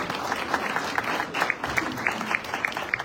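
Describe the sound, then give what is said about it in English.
An audience gives a round of applause, a dense, steady stream of many hands clapping at even loudness throughout. “You can give him a round of applause.”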